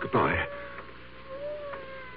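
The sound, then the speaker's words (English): A cat meowing: one brief wavering cry right at the start, then a faint steady hum with a few soft sounds and no further calls. “I hear a cat. He must be right in this room, but I don't see him.”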